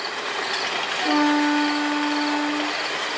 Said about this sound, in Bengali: নীরবতা, শুধু দূরে কোথাও ট্রেনের হুইসেলের শব্দ।